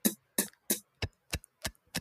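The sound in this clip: Beatboxed hi-hat 'T' sound made with the mouth: seven crisp, hissy, ticking bursts in a steady, even rhythm, heard alone without talk.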